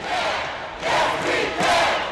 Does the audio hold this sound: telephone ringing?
no